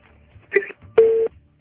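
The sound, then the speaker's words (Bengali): A telephone line tone as a call drops out on a bad network: a short warbling burst, a pause, then a steady mid-pitched beep lasting about a quarter second over faint low hiss. “আপনার লাইনটা বারবার পাওয়া যাচ্ছে কিন্তু তারপরে আবারও কেটে যাচ্ছে”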